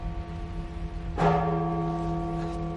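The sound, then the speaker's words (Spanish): A large tower bell, rung by someone hanging from its rope, gives one loud strike. Its deep, harmonic tone then rings on and slowly fades over a steady low hum. “está colgado de la cuerda de una campana”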